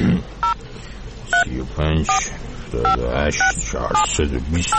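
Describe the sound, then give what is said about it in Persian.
Telephone keypad tones ring out as a caller dials an office number, a series of short two-tone beeps alternating with bursts of voice. “بذار من این شماره اینا رو بگیرم دقدلی من در بیارم سرشون”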